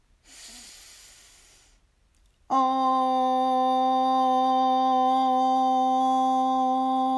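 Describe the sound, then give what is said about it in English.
A deep inhale during a guided breathing and affirmation exercise, a soft airy rush lasting under two seconds, then a steady, loud pure tone that holds to the end. “Breathe in.”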